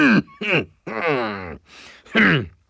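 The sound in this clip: Someone clears their throat in several short, rasping, voiced bursts separated by brief pauses. The bursts have a groaning, gravelly edge and are heard alone, without talk around them.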